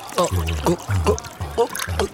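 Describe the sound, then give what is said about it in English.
A voice imitates raspberry mead being poured into a drink, with five evenly spaced, fairly loud gurgling glugs. “I got you a raspberry mead. Let me just pour that inside.”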